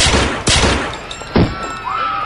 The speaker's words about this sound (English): you just shot her in cold blood